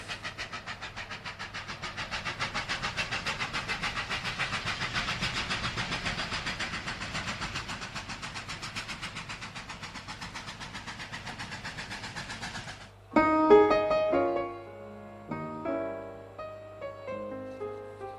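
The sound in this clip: A train sound effect plays a steady, rhythmic clickety-clack of rail wheels for about twelve seconds. It then gives way to a few bright, tonal notes.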